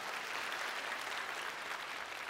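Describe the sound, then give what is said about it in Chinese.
Steady, fairly faint applause from a church audience after a report on growing missions giving, a continuous wash of clapping without breaks. “为你们信心鼓掌吧，哈利路亚。”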